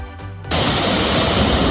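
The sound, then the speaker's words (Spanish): Floodwaters of the Alberche River roaring at the Cazalegas dam in Toledo province during a historic flood, a loud, steady, rushing wash of noise that starts abruptly after a brief quieter moment. “Río Alberche con la presa de Cazalegas. Esto en el río Alberche.”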